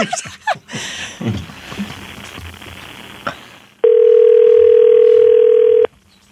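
Telephone dial tone heard while a call is being placed: a steady, unbroken electronic hum starts suddenly after a few seconds of faint, scattered noise, holds at an even loudness for about two seconds, then cuts off.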